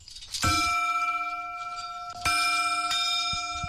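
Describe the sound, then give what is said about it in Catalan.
A hermitage bell at Sant Joan struck three times to announce arrival: clear metallic strikes with long, ringing harmonic tones, the first left to sound out before two more strikes come close together. “Doncs vinga, ho fem, toquem la campana, el batall o com ho diguem, sí?”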